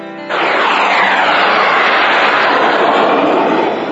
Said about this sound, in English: The Deathstalker and his friend, Kid Summerisle, called by some Kid Death, raced their modified flyers in and out of the trees, sweeping this way and that at breathtaking speed